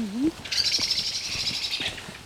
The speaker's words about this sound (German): Ja, mecker du, Amsel.